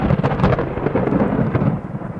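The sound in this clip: Thunder rolls in a deep, continuous rumble after lightning, with rain falling steadily underneath throughout.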